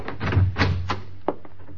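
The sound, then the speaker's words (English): A door is answered and opened, heard as a few muffled bumps and rattles followed by a sharper click near the end, over a steady low hum. “Someone at your door. I'll get it.”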